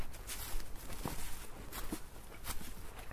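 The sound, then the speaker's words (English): Footsteps in wellington boots climbing up an embankment toward a trackway: a few soft, irregular thuds over a rustling, noisy outdoor background, with little talk. “Again, thank goodness for the wellies. Right, so to get on the trackway, you've got to climb up this embankment again.”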